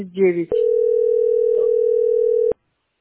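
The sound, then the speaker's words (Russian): A steady telephone line tone from a phone that seems to be disconnected, holding one unbroken mid-pitched note for about two seconds before cutting off abruptly; a short stretch of voice comes just before it. “Ну, у них отключен, наверное, телефон.”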